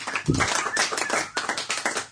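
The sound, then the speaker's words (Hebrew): Audience clapping for Hasidic singers at a holiday gathering: sharp, separate claps that come in an uneven patter, fairly loud, with little else behind them. “תנו כפיים, איפה אני עושה כפיים למנדי וייס.”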